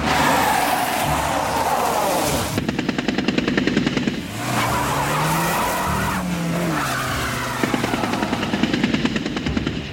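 Machine-gun fire rakes a road as cars race past, tires squealing, in an attack on a Panhard and two black DS-19s on an avenue in Clamart. Two long, rapid volleys crackle over a steady roar of engines and skidding.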